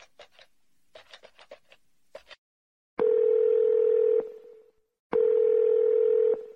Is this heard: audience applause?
no